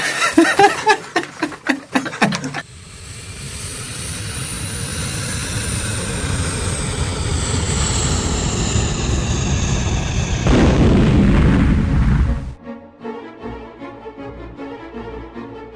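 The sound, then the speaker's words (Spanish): An airplane flying over the Amazon jungle drones with a steady engine roar and a high whine, then bursts into a louder rumbling crash before the sound cuts off abruptly. “El avión de la empresa Pluma que viajaba a Brasil se había caído en el medio de la selva amazónica.”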